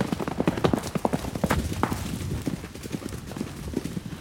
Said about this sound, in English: Ah, the hitch broke! Stop the horse! No, wait! Ah! Ouch! Whoa, horsey!